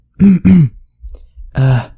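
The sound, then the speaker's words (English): A man on a naval ship clears his throat, with two quick, rough, voiced bursts in close succession and then a longer gravelly one after a short pause. “clears his throat, twice.”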